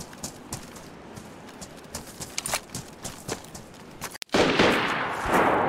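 Gunfire in a video game: a run of light, irregular clicks and taps, then a sudden loud blast whose rushing noise rings on to the end.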